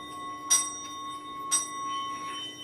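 Buddhist orin bowl bells struck twice during a performance by two elementary schoolchildren, each clear metallic strike followed by long, bright, sustained ringing tones that overlap and fade slowly.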